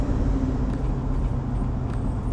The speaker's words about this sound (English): I got a truck that's going real slow ahead of me, and I'm going to have to get around them somehow, some way, any second now.